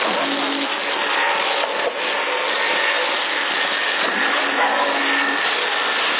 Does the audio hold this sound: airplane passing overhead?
yes

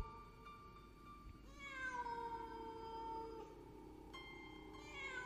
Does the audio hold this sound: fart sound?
no

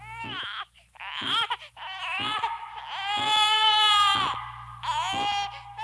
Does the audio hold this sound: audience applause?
no

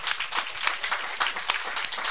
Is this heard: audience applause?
yes

